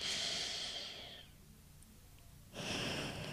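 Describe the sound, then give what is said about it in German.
Soft nasal breathing during an alternate-nostril breathing exercise against stress: an airy, hissing breath through the nose, a quieter pause, then another breath beginning. “links ein, ausatmen und wieder links einatmen”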